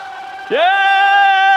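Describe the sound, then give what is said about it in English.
A voice in a locker room celebration after a coach's first win breaks into a loud, sustained cheering shout that rises in pitch at its start and then holds steady. “in the locker room”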